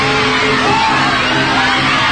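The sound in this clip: A game show studio audience cheers and whoops, a loud, continuous swell of yells and shouts from many people that holds steady from start to finish.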